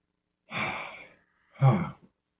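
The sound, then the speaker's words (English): A deep breath: a long, airy inhale is followed after a short pause by a shorter, stronger breathy exhale, heard alone against silence. “So before we get started, let's do a little deep breath.”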